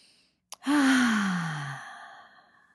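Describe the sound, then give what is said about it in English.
A deep breath during a mindfulness exercise is let out as a long audible sigh, voiced and falling steadily in pitch over about a second and a half. A brief click comes just before the sigh. “Take a deep breath.”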